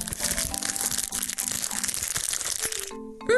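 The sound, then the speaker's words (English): Crinkling and crackling of a sweet wrapper being unwrapped, a dense run of quick, sharp rustles and snaps at a fairly even level. “Now pretend to unwrap a sweet.”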